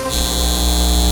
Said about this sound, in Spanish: Este es el sonido de un centro de datos llevándose el agua de nuestra comunidad y aumentando nuestras facturas de servicios públicos.